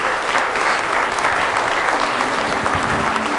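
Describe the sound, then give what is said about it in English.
A standing audience claps together in praise, producing dense, steady applause with no pause across the whole stretch. “Let's stand together and give him a hand clap of praise, would you?”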